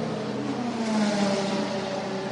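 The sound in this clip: Race car pulling away from pit lane after a four-tire change on Michelin tires during a sports car race, a steady whirring engine drone that swells slightly midway and holds without talk.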